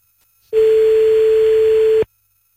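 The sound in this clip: Ringback tone on an outgoing telephone call: one steady, loud, mid-pitched tone lasting about a second and a half, preceded and followed by silence.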